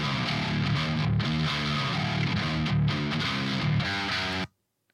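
Distorted djent electric guitar tone from a Strat through an Archetype Nolly amp preset: a loud, dense, palm-muted riff with rhythmic chugs and a few brief gaps, stopping abruptly into silence near the end.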